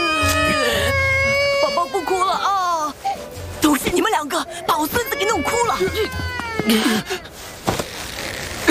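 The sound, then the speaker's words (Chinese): Babies crying: loud, wavering, high-pitched wails that overlap and continue almost without pause, growing more broken and frantic in the second half. “乖宝宝， 你们怎么搞的？ 越哭越凶了，”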